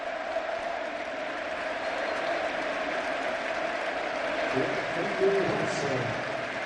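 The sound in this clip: A stadium crowd applauds as a football player is substituted, a faint, continuous wash of clapping that holds steady for the whole stretch.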